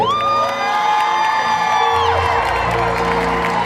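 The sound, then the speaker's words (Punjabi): Loud audience cheering, whooping and clapping at a live song performance, a dense, continuous roar with high shouts held steady throughout. “ਜੇ ਚੰਗਾ ਲੱਗਾ ਫਿਰ ਤਾੜੀ।”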